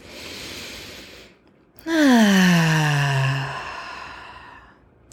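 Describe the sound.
A person takes a deep breath: a soft, breathy inhale, a brief pause, then a long voiced sighing exhale that slides down in pitch and slowly fades.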